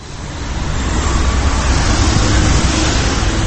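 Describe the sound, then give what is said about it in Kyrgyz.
Busy city street traffic in Ankara, Turkey, a loud, continuous roar of vehicles with no distinct separate events, building slightly over the first half second and then holding steady. “Бул жерде автоунаалар менен элдин агымы түндүн бир окумуна чейин токтобойт.”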